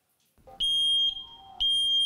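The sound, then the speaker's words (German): A smoke detector being tested during installation sounds two long, loud, piercing high beeps, the first preceded by a brief lower chirp, with a short gap between them. “Piepsen im Akkord. Funktioniert. Und Rauchmelder einbauen im Akkord.”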